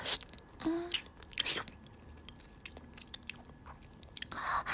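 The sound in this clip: Kissing sounds: soft, wet mouth smacks and clicks recur in a few brief bursts, fairly faint, with no talking.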